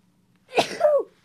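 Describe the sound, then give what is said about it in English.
A single loud human sneeze, a sharp burst followed by a voiced, falling release, heard alone against quiet. “wait, I'm about to sneeze.”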